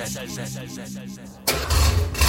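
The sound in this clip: Classic car engine starting: the engine bursts in abruptly partway through and settles into a loud, rough, low rumble to the end.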